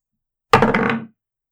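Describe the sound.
Dice rolled on a table for an attack in a tabletop role-playing game: one abrupt clattering thunk that rattles on for about half a second, then stops, with no talk over it.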